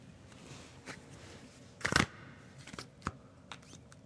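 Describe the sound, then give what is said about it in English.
Tarot cards being shuffled: a few soft, papery riffles and taps, one longer burst near the middle and several short ones after it, all quiet with no talk. “Okay, you guys get card ASMR.”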